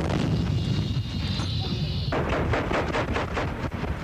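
Gunfire and explosions from the Salvadoran civil war between the army and the Farabundo Martí rebels: a loud, continuous rumble with dense bursts of shots, turning into more distinct, rhythmic pulses in the second half.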